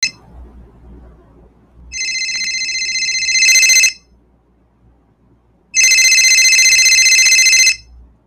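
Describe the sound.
An electronic telephone ringtone signals an incoming call in two long bursts separated by a pause, each a bright, steady high-pitched warble that grows fuller and louder near the end of the first burst.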